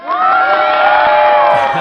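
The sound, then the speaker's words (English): Stadium crowd cheering in a loud, sudden burst of whoops and shouts that swells quickly and holds at full strength for the whole moment. “Was that the sound of somebody falling on their head and getting cheered?”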